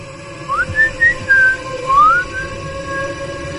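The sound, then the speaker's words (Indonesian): Human whistling heard during late-night ghost-story telling: a handful of short, clear notes that rise, hold and fall in a loose melodic phrase over low background noise, then give way to quiet. “Tia, sejak cerita kedua sampai sekarang selalu kedengaran suara siulan.”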